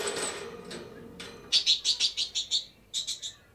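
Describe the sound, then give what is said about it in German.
A bird chirps as it flies out through an opened door in a German children's radio play: a soft rustle, then seven quick, high chirps, a brief pause, and three more. “Der Vogel ist hinausgeflogen.”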